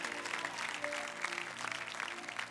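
A church audience applauding, a dense, steady patter of many hands clapping with a light crowd murmur, continuous from start to finish.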